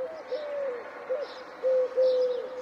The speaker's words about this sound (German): Am nächsten Morgen erfährt er, es war der Ruf der Türkentaube, der Streptopelia decaoctor